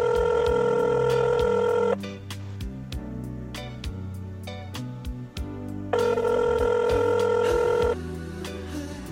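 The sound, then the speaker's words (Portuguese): A telephone call connects: two long, steady ringing tones separated by a silent gap of about four seconds, with sharp clicks scattered throughout over a steady low background sound. “Dá para conectar a ligação, produção?”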